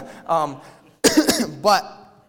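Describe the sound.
Coughing from a preacher who has a cough during a sermon: a tight cluster of a few rough, harsh coughs, with brief voiced sounds before and after.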